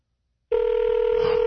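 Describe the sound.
A telephone ringing tone heard from the caller's end of a line: a steady, even electronic tone starts after half a second of silence and holds unbroken to the end.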